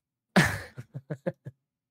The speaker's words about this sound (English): Sorry, my pupper's looking out the window. That's your puppy. Growling at people because he has no sense of boundaries.